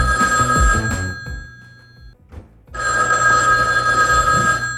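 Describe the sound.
Ringing tone of an outgoing telephone call, sounding in two long, steady tonal stretches separated by a silent pause of about a second. No one speaks.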